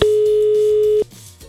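A telephone ringback tone plays as a radio host calls a listener: one loud, steady, pure beep lasting about a second, then it cuts to faint line noise.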